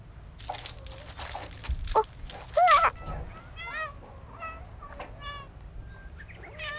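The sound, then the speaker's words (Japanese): Cats gather on a cat island as dried sardines are handed out, meowing many times; their short, high, overlapping calls pile up in the second half over a steady background hiss. “猫ちゃん集まってきたぞなもし。”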